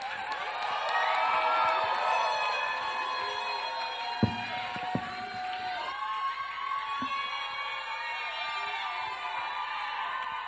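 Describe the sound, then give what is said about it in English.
Sustained audience applause and cheering with scattered whoops as a speaker is welcomed at a church gathering, a steady roar of clapping for about ten seconds with a couple of sharp knocks. “Put your hands together for a powerful testimony as we welcome Stella.”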